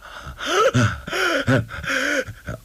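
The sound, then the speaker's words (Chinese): A voice imitates a man gasping for breath with his mouth wide open, bleeding from the mouth and nose: a series of ragged, breathy heaving gasps with rising and falling voiced strains, moderately loud. “张着大嘴直喘气”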